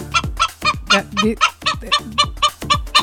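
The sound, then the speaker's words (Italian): A hen cackles after laying an egg, giving many loud, rapid clucks in a steady, insistent rhythm, each call sharp and nasal, with no voices. “Ah, che la gallina fa così quando fa l'uovo? Perché chiama il gallo?”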